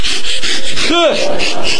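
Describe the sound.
A voice imitates a small saw cutting through a limb at the wrist during an amputation, making many rough, rasping strokes in a steady back-and-forth rhythm with a brief tonal vocal swoop near the middle.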